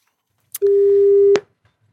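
Telephone line tone heard while a number is dialed to call a listener: a single steady, mid-pitched beep lasting under a second, bracketed by short clicks, with no voices.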